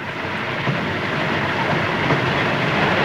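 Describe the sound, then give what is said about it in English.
A train rolls away, producing a steady, loud rumbling roar with a faint clickety-clack of wheels that keeps an even level throughout, with no voices. “as the train rolls away”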